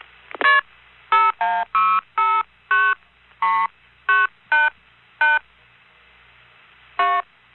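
A telephone dials a long-distance number in touch tones: eleven clear beeps at an even, brisk pace, with a longer pause before the final tone, all over a quiet line.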